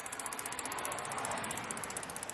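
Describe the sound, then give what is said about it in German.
Bicycle freewheel ratchet clicking while riding, a fast, even stream of many sharp ticks running through the whole clip over a broad rushing noise of wind and road. “Ich fahre also hin. Der Umwelt zuliebe mit dem Fahrrad.”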